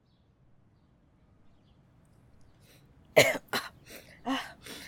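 Several harsh coughs from someone suffering allergies, breaking out in a quick cluster of loud, rough bursts after a quiet stretch.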